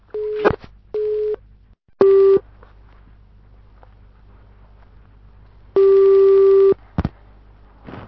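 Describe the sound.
Beeping tones sound on a telephone line while a call is placed to someone's home: three short steady beeps, a pause, then one longer tone followed by a couple of brief clicks.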